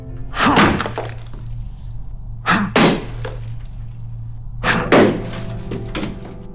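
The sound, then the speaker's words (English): Heavy crashing blows of a sledgehammer smashing through walls, with material breaking apart; several loud impacts arrive in three separate bursts with pauses between them. “I keep swinging the sledgehammer until the walls barely exist.”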